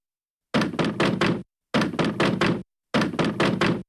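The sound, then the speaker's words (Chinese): Knocking on a door at night: three loud, evenly spaced bursts of rapid knocks, each burst a quick run of several sharp blows, with brief silences between. “陈锡九正睡觉呢，听到外边有人敲门，啪啪啪啪啪啪啪啪”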